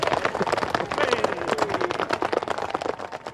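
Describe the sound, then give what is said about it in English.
Horses' hooves clatter up a hill at the Hawick Common Riding, a fast, dense and loud barrage of overlapping impacts that runs without a break for the whole clip. “This is an absolute charge coming up the hill now. They are just clattering on up this hill.”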